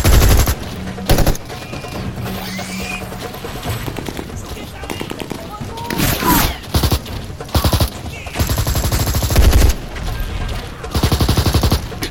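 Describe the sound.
Battle-scene gunfire rattles in rapid machine-gun bursts across the whole stretch, loud and continuous with brief gaps, with voices mixed in among the shots.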